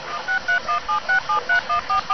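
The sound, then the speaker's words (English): Speed dialing on a cell phone: a quick, evenly spaced run of short electronic keypad beeps, fairly faint and with no voices. “I think I got him on speed dial on my cell phone.”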